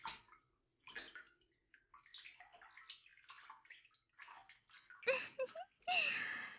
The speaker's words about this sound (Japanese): お風呂に入りましょう。